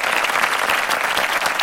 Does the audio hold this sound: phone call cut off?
no